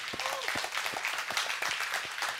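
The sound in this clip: A church audience applauds during a morning service, many hands clapping in a dense, steady patter with a few sharper individual claps standing out throughout.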